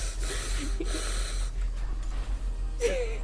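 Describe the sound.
A voice imitates heavy breathing with a few rough, snorting, wheezy breaths spaced irregularly over a low background hum.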